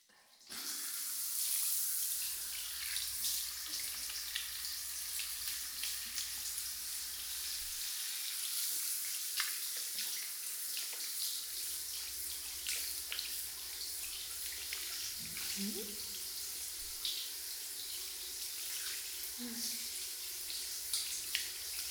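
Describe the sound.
Tap water runs at a washing area to rinse something sticky away, a steady, faint, hissing stream that continues unbroken throughout.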